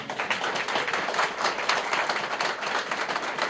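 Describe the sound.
A studio audience applauds during a television interview, a dense, steady patter of many hands clapping at an even level throughout.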